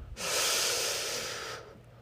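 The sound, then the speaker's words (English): A slow, deep breath drawn in through the nose or mouth, one long airy inhale lasting about a second and a half that swells quickly and then holds steady before fading, with no talking. “And I want you to breathe in for 5 seconds.”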